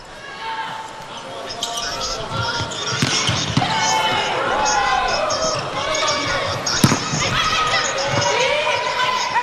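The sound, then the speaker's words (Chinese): A volleyball is bounced ahead of a serve at an Iran versus Japan match, giving a few sharp thumps against a dense, steady crowd roar. “双方的第三局马上就要开始了。伊朗队来发球”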